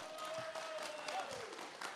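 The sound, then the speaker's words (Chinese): A studio audience applauds to welcome a guest with faint, steady clapping that stays even throughout. “来，掌声欢迎”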